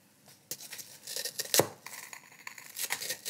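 A spoon cracks open a strawberry lava dessert, producing many faint crackling, crunching clicks with one sharper crack midway through, alone with no talk.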